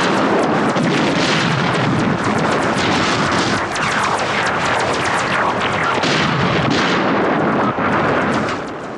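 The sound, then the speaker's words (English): Heavy gunfire comes from behind during a battle, with many rapid, overlapping shots and booms forming a loud, dense barrage that continues without a break. “Oh, they're still shooting from behind.”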